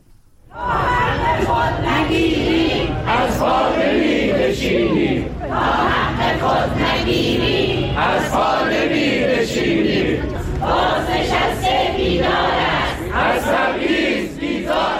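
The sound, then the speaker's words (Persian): A group of protesting retirees in Kermanshah, Iran, chant slogans together. Loud, continuous crowd chanting with a rhythmic rise and fall runs throughout. “این صدای گروهی از معترضان در کرمانشاه است.”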